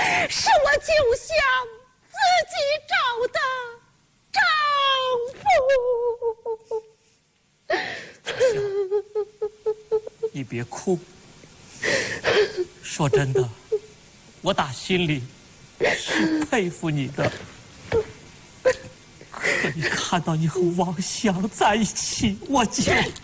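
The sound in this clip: A woman cries with gasping, breathy sobs and whimpers, broken by short pauses and uneven bursts, with another voice speaking in between.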